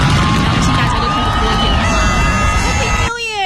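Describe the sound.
Loud crowd cheering and shouting at a New Year's Eve countdown celebration, a dense, continuous roar of many voices that keeps up throughout and cuts off abruptly near the end.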